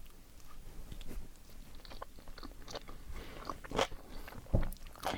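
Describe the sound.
Chewing a skewered canapé of layered unsweetened cake, eaten with wine: faint, soft crunchy bites and mouth noises, with a few sharper crisp clicks toward the end.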